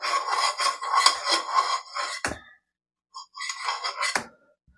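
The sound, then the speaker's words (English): A spoon scraping chocolate out of a bowl: two bursts of busy, gritty scraping, each ending in a sharp clink of the spoon against the bowl, separated by a brief silence. “And I'm going to even use a spoon just to make sure we scrape stuff out. I want all the chocolatey goodness we can get.”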